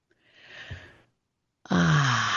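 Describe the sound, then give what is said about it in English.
A deep breath during a guided meditation: a soft, slow inhale, then after a brief pause a louder, breathy sighing exhale with a slight voiced tone. “So one more deep breath with me.”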